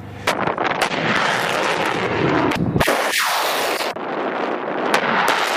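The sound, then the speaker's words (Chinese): Long-range rocket artillery fires during a live-fire drill: a few sharp, loud blasts cut through a continuous roaring rush, with heavy wind buffeting the microphone throughout. “官兵们迅速撤收装备向预备阵地转移，并展开第二轮的火力打击。”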